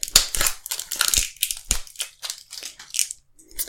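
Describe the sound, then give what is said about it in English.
Scissors cutting the top off a container make crunchy, crackling snips and crinkles, many irregular bursts in quick succession, loudest at the start and thinning toward the end. “trusty scissors again, just to get the top off here.”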